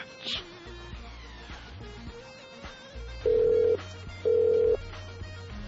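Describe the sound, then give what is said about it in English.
Telephone call ringing on the line: two steady, evenly spaced ring tones, each about half a second long, sounding fairly faint over a low background hum, with no talk. “I'm gonna try calling one more time.”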